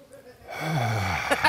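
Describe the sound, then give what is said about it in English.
A man's voice imitates the heavy, laboured breathing of someone with food poisoning. A drawn-out groaning exhale is followed by a couple of short, sharp breathy puffs. “At this wedding, at Kate and Toby's wedding, I had food poisoning. You had to act through that? Yeah, there was some sweating and a lot of this type of breathing where”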